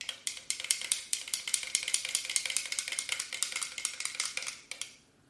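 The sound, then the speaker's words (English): A small spoon stirs inside a container, tapping out many rapid, bright clinks in a steady rhythm that carry on for several seconds before stopping abruptly. “Okay, I got my new spoon. Now I will put it in. Stir a little bit.”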